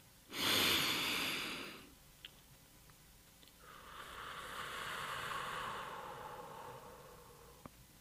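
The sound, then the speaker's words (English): A great big deep breath: a loud, airy rush lasting about a second and a half, then, after a short pause, a longer and softer breathy stretch, with no talking. “Take a great big deep breath.”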